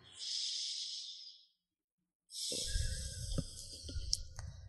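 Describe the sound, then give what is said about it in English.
Deep breath during a guided affirmation session: a long, soft, airy breath, a short silence, then a second long breathy sound with a low rumbling texture and a few faint clicks. “And take a deep breath.”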